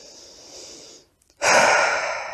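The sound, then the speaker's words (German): A deep breath in and out during a guided meditation: a soft, airy inhale, a brief silent pause, then a long, loud, rushing exhale that slowly fades, with no talking. “Und nun atme ein letztes Mal tief ein und aus.”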